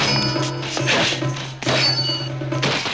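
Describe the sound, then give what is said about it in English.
Shields clang as gladiators McCoy and Flavius strike each other in an arena fight. A few heavy metallic blows crash and ring out, separated by brief pauses. “McCoy and Flavius strike each other's shields.”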